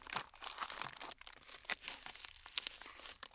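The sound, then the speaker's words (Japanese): Crinkling, tearing plastic and paper packaging as new items are unwrapped one by one, a run of many quick, crisp rustles and rips at moderate loudness with no talk. “全部新品なんです。なので一個ずつ開封していきたいと思います。”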